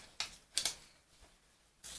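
Wavy-edge scissors cutting through material, giving a few crisp, bright snips separated by short pauses, with no voices.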